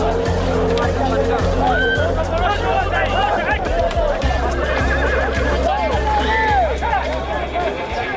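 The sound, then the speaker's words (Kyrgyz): Horses whinny at a traditional ulak (kökpar) horseback game, the hardy, strong Lakai breed, with several rising and falling neighs over a continuous low drone and background crowd babble. “Мына ушул улакларга эм жүдө чыдамлы, бакуват чайыр атлар сапланган.”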